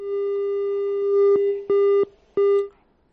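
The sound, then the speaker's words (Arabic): A telephone tone sounds after a phone-in call drops: a long steady electronic tone is followed by two short loud beeps of the same pitch, with no talk. “خديجة انقطع الاتصال معها”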